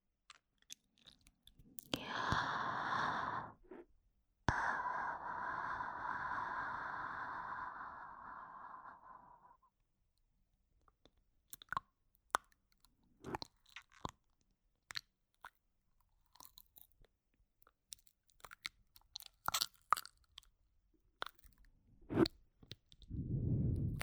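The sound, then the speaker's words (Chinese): Close, quiet wet mouth sounds made with tongue and lips: after a soft breathy stretch, many sharp, irregular clicks and smacks follow one another with short silences between them. “接着听听我舌头和嘴唇发出的声音。”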